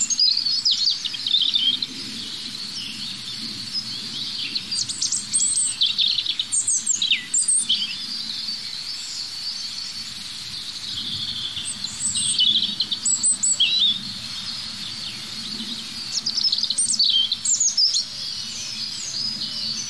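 Songs of several birds overlap into a dense chorus of high chirps, trills and short phrases that run on for the whole stretch, fairly loud above a low, soft background.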